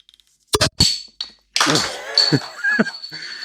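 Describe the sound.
A Corona beer bottle is opened with the cap striking the lip: a few sharp, hard knocks in quick succession, then a brief voiced outburst with scattered clatter.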